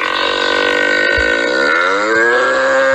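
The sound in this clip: Cattle low in a farm stable, one long, loud, drawn-out moo with a wavering pitch that holds for the whole stretch.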